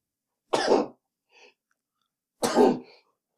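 Sneezing: two loud, abrupt bursts about two seconds apart, with a faint short breath between them and silence around them.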